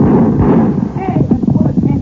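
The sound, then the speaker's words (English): Gunfire in a western-style shootout, heard as rough, muffled bangs and pops that come close together in a dense burst, with low rumbling underneath. “Fire! Fire back at them, Poncho. Be careful not to hit them.”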